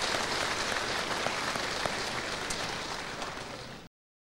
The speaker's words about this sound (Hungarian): Nagy tapsal köszöntjük őket.